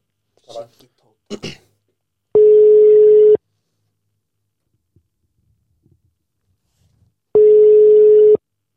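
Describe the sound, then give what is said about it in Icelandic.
Two identical ringback tones sound while a phone call waits to be answered. Each is a steady, loud, mid-pitched buzz lasting about a second, spaced several seconds apart, with brief voice sounds just before the first and near silence between. “Nú býðum við eftir að Sigþór svari. Svo kannski bara svara hann ekki.”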